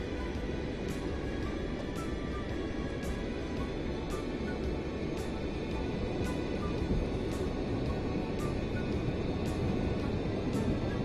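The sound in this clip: Airplane engine hum as the aircraft taxis into position in Microsoft Flight Simulator X, a steady low rumble with faint, regularly spaced ticks running through it.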